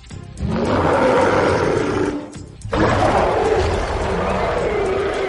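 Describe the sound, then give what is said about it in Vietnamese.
A male wild beast roars in pain: a loud, rough, sustained roar, briefly broken near the middle before a second long, harsh roar that carries on to the end. “Thú đực gầm rú vì quá mức đau đớn.”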